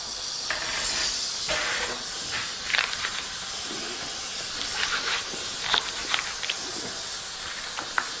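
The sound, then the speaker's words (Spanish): Food sizzles as it roasts slowly in a pan, a steady bright hiss with scattered small crackles and pops, with no voices. “La vamos a poner aquí y la vamos a asar poquito a poco.”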